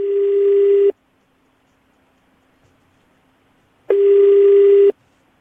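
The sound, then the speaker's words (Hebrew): Ringback tone of an outgoing telephone call: two steady buzzing tones, each about a second long, separated by a few seconds of silence. “הנה הטלפון, הם חייגים.”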